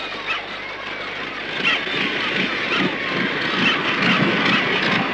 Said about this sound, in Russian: Самолет красно-белого цвета. У него постепенно останавливается пропеллер.